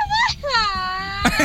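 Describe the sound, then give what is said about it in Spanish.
A Mexican charro grito shouted by a caller: a high voiced cry that slides downward, then a long, sustained wavering wail, ending in a short, harsh burst. “tenemos otro grito de charro”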